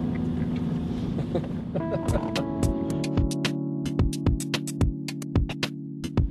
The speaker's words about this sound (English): Auto driving. Here we go. Away we go.